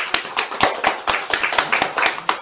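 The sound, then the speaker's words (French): Rhythmic hand clapping from a church audience, a steady run of sharp, evenly spaced claps struck together in unison, loud and alone without talk. “Applaudissons pour le frère.”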